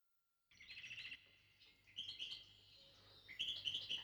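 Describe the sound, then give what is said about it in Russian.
A nightingale sings at night in a pomegranate tree, giving high, rapid chirping phrases in three bursts separated by short pauses, fairly faint and with no voices. “Нас оглушил не жаворонка голос, а пенье соловья. Он по ночам поет вон там, на дереве граната.”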